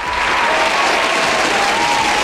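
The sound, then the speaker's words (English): Applause from a crowd fills the whole stretch as a dense, steady wash of clapping, loud and even throughout, with no voice over it. “can I please get a round of applause for the weekend?”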